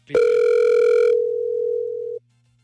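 A telephone rings on a call that goes unanswered: one long, steady, loud ring tone that then cuts off into silence.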